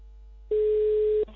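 A telephone dial tone on an outgoing call: one steady, mid-pitched continuous hum that starts abruptly, holds for under a second and cuts off sharply, with no talk over it.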